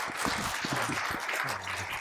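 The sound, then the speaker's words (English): A church audience in Island Pond applauds to welcome a preacher, a steady moderate patter of clapping with a few voices faintly mixed in. “Please give a warm Island Pond welcome to Aaron as he preaches God's word to us this”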